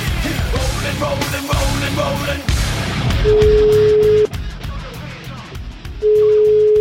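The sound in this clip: A steady telephone tone sounds twice while a call is being placed. Each tone holds one even pitch for about a second, and the second is cut off at the end. People talk and noise fills the first half before the tones begin.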